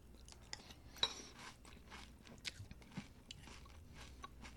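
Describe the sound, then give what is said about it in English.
Crackling of fruit-flavored cereal in milk: many small, faint crisp pops and crunchy snaps arrive in an uneven scatter, with a sharper crack near the start and no voices over them. “Oh, it's a little bit crackly. I don't know if you can hear that or not. It's slightly crackly. It's beautiful with milk on it.”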